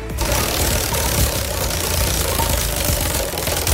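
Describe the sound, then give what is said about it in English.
Spinning prize-wheel sound effect for a home wheel: a loud, dense, continuous mechanical clatter with rapid knocking, steady throughout with no talk. “It's my wheel from Amazon, so I think I'm going to need the sound effect because I don't think you're going to be able to hear it. Here we go. Spin the wheel.”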